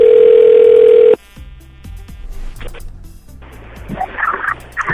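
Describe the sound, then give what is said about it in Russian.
A telephone line tone sounds while someone places a call: one loud, steady, unbroken tone lasts about a second, then cuts off abruptly into quieter, mixed background sounds. “Возьмет он трубку или нет? Сегодня мы пытались ему дозвониться, а не получилось.”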